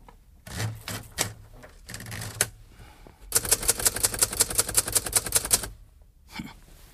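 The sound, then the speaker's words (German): Typing on a typewriter: a few scattered clacks and rustles, then a fast, steady run of many sharp, loud keystrikes, ending with a lone clack. No voices are heard. “Darf ich mal kurz etwas auf dieser Schreibmaschine tippen?”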